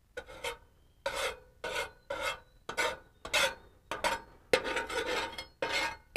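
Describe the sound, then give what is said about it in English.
Bread stuck to a cooking surface is scraped off while burgers are being made. Many short, harsh rasping strokes repeat in a steady, uneven rhythm, each a gritty scratch separated by brief pauses, with no talking. “And now I'm going to scrape some of the bread off.”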